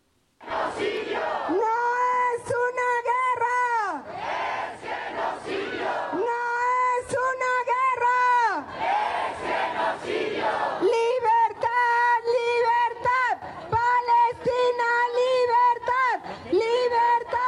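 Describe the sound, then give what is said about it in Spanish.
Crowd of protesters at street demonstrations, a loud mass of voices chanting and shouting in repeated surges that run continuously, with strident, tonal cries rising over the din throughout. “Bueno, pues ahí están las manifestaciones.”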